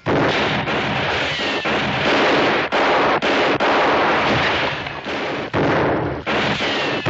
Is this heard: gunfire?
yes